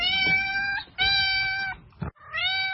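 A cat meows in three drawn-out, tonal calls separated by short pauses. The last call is cut off at the end, and a brief soft sound falls between the second and third calls.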